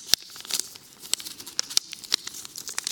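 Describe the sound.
Crisp paper crinkling and tearing as a paper offering envelope is opened during a church offering count, with many sharp rustling snaps at an uneven pace, fairly quiet and with no talking.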